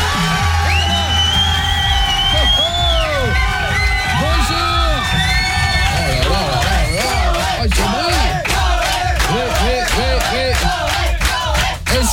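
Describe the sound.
A studio audience cheering and whooping, loud and unbroken, with many high swooping whoops and shouts rising and falling over a dense crowd roar throughout.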